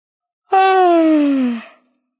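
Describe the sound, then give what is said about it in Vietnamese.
A single voiced yawn, about a second long. It starts as a loud open tone and then slides steadily downward in pitch before trailing off into silence. “A Hắc ngáp.”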